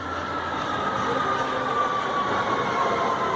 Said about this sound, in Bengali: অরিন্দম কবি নজরুল মেট্রো স্টেশনে দাঁড়িয়ে দূর থেকে দেখতে পাচ্ছে ট্রেন ঢুকছে।